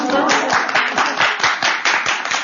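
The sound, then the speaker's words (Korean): An audience clapping after a talk on investing: dense, steady applause of many hands with crisp, rapid claps continuing at an even loudness throughout, without speech standing out. “우리의 박수 치셔도 됩니다.”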